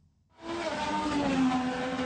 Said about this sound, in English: President Trump waved the green flag and then they were off. 25 drivers roaring through the Capitol streets.